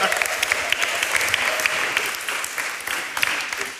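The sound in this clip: Applause from an audience welcoming someone to the front: a dense, steady patter of many hands clapping, even in loudness throughout, with no voices standing out.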